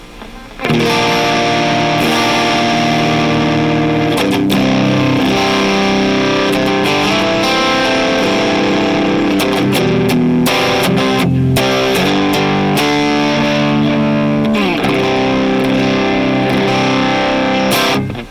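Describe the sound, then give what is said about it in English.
Loud, continuous distorted electric guitar chords through a distortion pedal set to asymmetrical soft clipping, with level and drive fully up, tone at about one o'clock and tone shift engaged. The thick, buzzing sound sustains for nearly the whole stretch. “We've got our tone shift on, and then we're in the down, the soft clipping, asymmetrical.”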